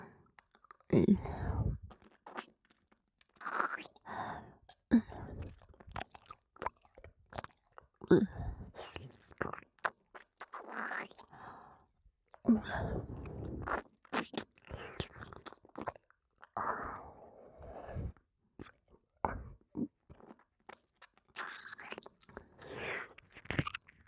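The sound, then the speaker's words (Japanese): Soft, wet licking and slurping sounds on an ear form many irregular smacks and squishy mouth noises. Short gaps separate them, and they stay quiet throughout. “すまない、ちょっと耳を舐めさせてくれ。”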